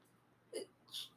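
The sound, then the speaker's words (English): Two brief hiccups from a person, each a short, faint, abrupt burst separated by a quiet gap. “Diet Cherry Coke, and I got the hiccups again”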